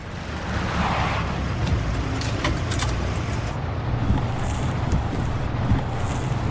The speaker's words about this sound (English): Frankie drives Jimmy back to his place, but has some strong words for him.